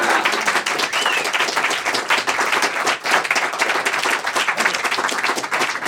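An audience welcoming Steve Martin with vigorous applause, many hands clapping in a thick, continuous wash that stays loud for about six seconds.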